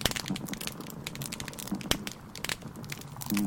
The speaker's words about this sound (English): you can hear some grunts and sort of knocking sounds. Those are certain types of fish. And then you can also hear a lot of snaps from the snapping shrimp especially.